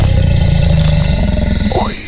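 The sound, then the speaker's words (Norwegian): A Ford Mustang's engine revs on the Nürburgring race track in Germany. The loud, dense roar holds steady, then its pitch falls sharply near the end as the sound fades slightly. “Kjør en Mustang på Nürnberg-ring I Tyskland!”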